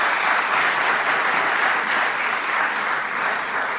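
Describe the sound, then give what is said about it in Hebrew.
An audience applauds for an arriving speaker at a public event, a dense, even wash of clapping from many hands, loud and steady throughout without a pause. “אפשר למחוא כפיים”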